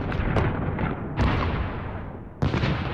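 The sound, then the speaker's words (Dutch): Bombing sound effect: several heavy explosions, each a sharp booming blast followed by a long rumbling decay, with the later blasts spaced more widely apart. “Zo klinkt een bombardement.”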